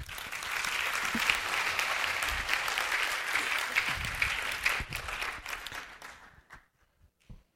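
An audience bursts into dense, sustained applause that holds strong for several seconds, then thins toward the end into a few scattered last claps before falling quiet.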